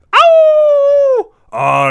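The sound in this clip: A single long howl, like a wolf at a full moon, holds a steady pitch for about a second before dropping away. After a short pause comes a second, rougher harmonic cry.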